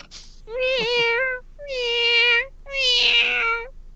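A female cat being petted gives three long, drawn-out meows separated by short pauses. Each call is loud and clear, with a slight wavering pitch.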